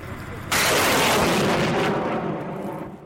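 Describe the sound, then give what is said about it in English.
A Soviet-era Grad multiple rocket launcher fires toward a target, with a sudden loud blast followed by a sustained rushing roar that slowly fades over a couple of seconds. “another team are preparing to fire their Grad rocket launcher, another Soviet-era weapon. They're just lining up the Grad rockets now to hit a target.”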